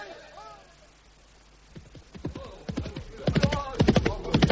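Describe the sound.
Llamas running with clip-clopping hooves, a fast rhythmic clatter of hoof strikes that starts faint and grows steadily louder and denser.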